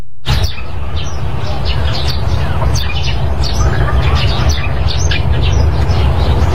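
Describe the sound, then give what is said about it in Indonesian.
Birds chirp through a morning scene in many quick, high tweets over a steady low rumble that fills the background. “Hangatnya sinar surya menyambut pagi, kicauan burung di tengah kesibukan di awal hari menambah harmoni kehidupan.”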